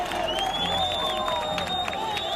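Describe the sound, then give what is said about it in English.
Crowd applause and cheering erupt at a rescue site as rescuers bring a woman out alive from the rubble of a collapsed building that housed a hair salon. The clapping and cheers form a steady, dense wash throughout. “Less than 2 hours later, and one block from the first rescue site we visited in Pereira, applause erupts.”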